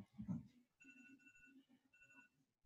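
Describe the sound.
A phone rings in two bursts of a faint, high electronic tone, following a brief low voice at the start.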